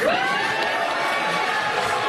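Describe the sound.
A crowd cheering at a political debate. It is a loud, steady roar of voices that holds for about two seconds without a break.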